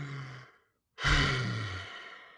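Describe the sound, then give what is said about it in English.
A deep breath drawn in follows a short silence, heard as one long, breathy rush of air that swells quickly and then slowly fades. A steady low hum sits beneath it. “Let's take a deep breath. So let's take a deep breath in.”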